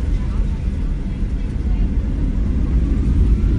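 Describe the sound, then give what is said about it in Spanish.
Steady, deep engine rumble of an airplane about to take off, heard from inside the cabin as a dense, constant roar with no clear change throughout. “hay que coger un avión, así que aquí nos hemos venido, estamos a punto de despegar, abróchate el cinturón”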